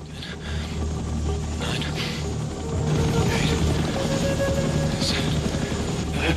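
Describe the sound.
A helicopter drones steadily, its rotor and engine making a low, continuous hum with buzzing tones that grows a little louder partway through.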